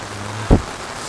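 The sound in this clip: Heavy rain falling steadily as a typhoon approaches, a dense, even hiss with a single dull low thump midway through.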